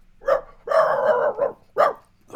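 A man with a sore throat imitates a dog barking: several loud, sharp woofs, one drawn out into a longer growling bark, with no talking.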